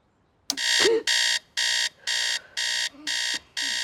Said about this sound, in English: She turns off the alarm.